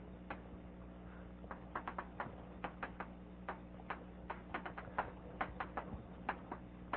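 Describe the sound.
Writing on a board during a mathematics lecture: many faint, irregular ticks and taps at an uneven rhythm, with no one talking.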